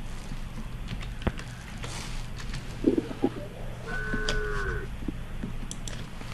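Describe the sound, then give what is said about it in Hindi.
A cow moos in a village: a single drawn-out, tonal low moo rises out of a steady low hum, with a few faint knocks and shuffles around it. “मैं गाय का आवाज भी सुना दे रहा है”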